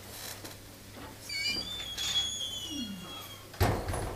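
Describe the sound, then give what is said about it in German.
Doors that need oil open with faint, thin high-pitched squeaks, followed by a sharper knock near the end, all fairly quiet. “Die Türen gehen.”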